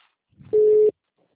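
A telephone line tone sounds while a call is placed: one short, steady, pure beep lasting about a third of a second, preceded by a faint low rumble and followed by silence.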